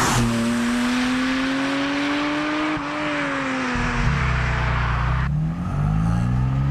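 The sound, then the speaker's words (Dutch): A turbocharged car pulls away at a calm pace. Its engine gives a steady, throaty drone whose pitch climbs gently, dips once at a likely gear change, then carries on rising and shifting. “Nou, we rijden rustig weg. Ik kan ook rustig maar rijden.”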